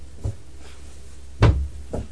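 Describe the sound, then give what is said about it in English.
Someone kicking a door: a few dull, low thumps at irregular intervals, one noticeably heavier than the rest, standing out from faint background noise. “don't kick the door. It's dangerous.”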